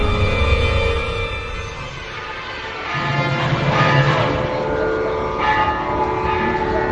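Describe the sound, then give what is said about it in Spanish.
Bells ring at a Hindu temple in Chinatown, Singapore: sustained, overlapping metallic tones hum over a steady wash of ambient noise and grow louder in the second half. “Así suena el templo hindú de Chinatown en Singapur.”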